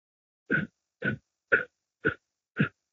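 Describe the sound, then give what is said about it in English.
Five short, forceful exhalations from a person doing a breathing exercise, air pushed out in bursts from the stomach with passive inhales between; each gruff puff is brief and evenly spaced about half a second apart, with nothing else heard. “you just exhale in short bursts, and the inhale is passive. So it's like,”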